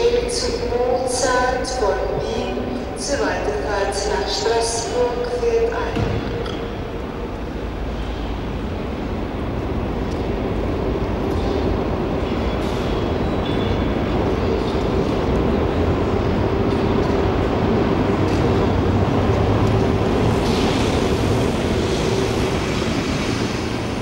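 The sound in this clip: A train at a railway station: high metallic squeals and whistling tones over a low rumble at first, settling into a steady, broad rumbling roar that continues to the end.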